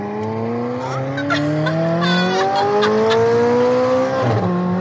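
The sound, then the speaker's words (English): A high-performance car accelerating hard, its loud engine note climbing steadily in pitch for several seconds before a brief dip near the end, with no talk over it. “So can we actually go in the car? Yeah, let's go. Ready? I very much am.”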